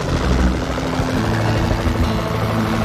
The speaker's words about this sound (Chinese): 一架直升机正在白头海雕的巢穴上空巡逻，这里就在特洛伊的联邦水坝附近。